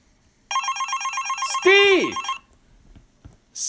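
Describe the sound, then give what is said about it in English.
A mobile phone rings with a bright electronic ringtone, a rapid pulsing trill repeated for about two seconds, ending under a falling tone, then near silence with a brief faint blip at the end. “Oh, my mobile,”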